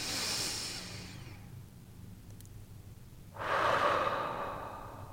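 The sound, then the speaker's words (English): A person takes a deep breath, alone and without talk: a soft, drawn-out inhale, a quiet pause, then a longer and louder breathy exhale. “I invite you to take a breath with me.”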